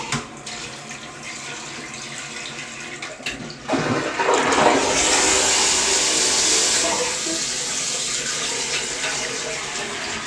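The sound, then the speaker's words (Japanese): A toilet flushes: after a quieter stretch, a sudden loud rush of water swells and holds as a steady gushing roar, then eases slightly while still running at the end. “よし、じゃあ流します。”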